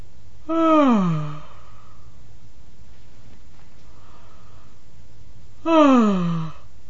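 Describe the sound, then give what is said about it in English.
A stifled yawn: two breathy voiced sounds, each with a falling pitch, separated by a long quiet pause. “The first example is of a yawn that was stifled.”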